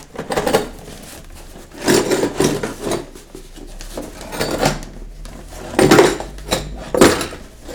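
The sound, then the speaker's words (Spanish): Handling of a key on a keyring with a padlock: several short bursts of metallic jingling and rubbing, spaced irregularly, with quieter handling noise between them. “Sí, es una llave. Sí. Con su candado, ¿no? Sí. ¿Seguros? Sí. Ta-ta-tán. Ya. Con su llavero.”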